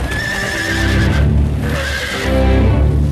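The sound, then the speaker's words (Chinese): A horse-drawn carriage trotting away from a railway station onto a city road: a steady, loud run of clip-clopping hooves with a horse's whinny, continuous throughout and with no talk. “高君曼带着两个孩子上了马车，马车在离开北站之后一路小跑，跑入法租界霞飞路。”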